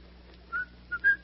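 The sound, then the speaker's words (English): A person whistling a tune, heard as three short, faint, mid-high notes: one alone, then two close together, the last slightly longer, over a quiet low hum. “I notice you whistle that tune when things are going well.”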